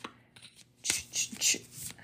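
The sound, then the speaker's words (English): Shuffling a deck of oracle cards: a few crisp riffling bursts of card edges flicking together, with quieter handling in between. “Shuffling, there we go. I am shuffling this card deck”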